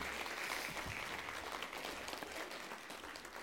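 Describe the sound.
Audience applause, a faint but dense and continuous patter of clapping that eases slightly toward the end, with no voices over it.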